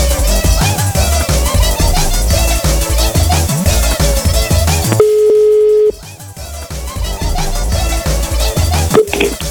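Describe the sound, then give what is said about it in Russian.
Telephone ringback tone heard while calling someone: a single steady, mid-pitched tone lasting under a second, sounding in a short break in loud background music, which then resumes. “Лайфхак, я звоню Ане.”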